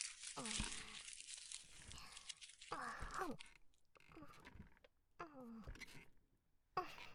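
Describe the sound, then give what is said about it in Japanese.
A wrapper crinkles and tears as a newly released chocolate is unwrapped and eaten: brief crackling, rustling bursts separated by pauses, with a voice talking between them, all fairly faint. “何食べてるって。新発売してたチョコレート、これ当たりだよ。超おいしいし。”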